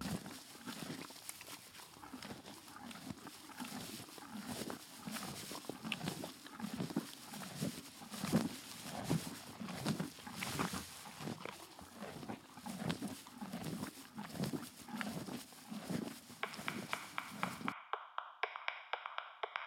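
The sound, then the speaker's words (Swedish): Horses in a stable during morning feeding, heard as many soft, regular low thumps and rustles in a steady rhythm, quiet and without talk, until the sound cuts to near silence at the end. “Vi är alltså i stallet och vi... morgonfodrar. Just det. Okej, och här kommer några minuter av ASMR.”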